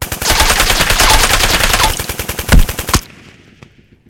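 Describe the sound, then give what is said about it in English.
Automatic-weapon sound effect for a sci-fi tabletop roleplaying game, with bullets sprayed at armored alien foes: a loud, rapid, continuous burst of gunfire lasting about three seconds, then cutting off into a few faint trailing pops. “Nyx starts spraying the Morat, firing bullets into their armor, and some of them clink off, but most go and find their mark.”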